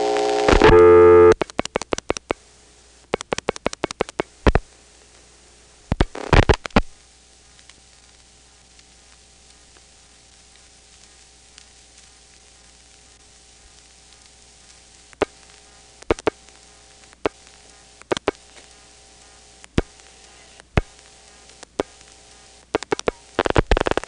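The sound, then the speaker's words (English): A telephone trunk line's reorder tone from Dale City hums faintly in the background under steady static, while switching equipment operates with many sharp, irregular clicks, a dense cluster at the start and scattered bursts after. “you do get to hear the equipment operating, at least to a point. This particular trunk does have the Dale City reorder in the background.”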